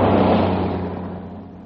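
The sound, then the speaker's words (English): A car engine rumbles with a broad, steady roar that starts loud and gradually eases off, with no talk over it. “Oh, here, yeah, another car coming.”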